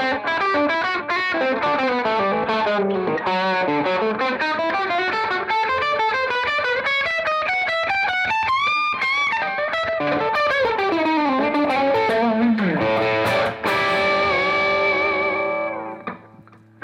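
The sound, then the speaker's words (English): Electric guitar through a Klon-style overdrive pedal, set with forward mids and extra top end, plays loud, sustained, driven chords and melodic runs alone, then fades out at the end. “So this kind of represents, like, more or less how I like to set a Klon style drive, where you're getting all those mids, they're just spearheading your whole sound”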